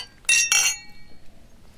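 Glasses clink together in a toast: two quick, bright, ringing taps in close succession, followed by near silence.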